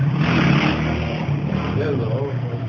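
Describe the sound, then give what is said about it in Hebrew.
Motorcycles revving: a loud, dense engine roar with a low throbbing drone that holds steady throughout, without a break. “וזה אופנועים של ה... זה רציני.”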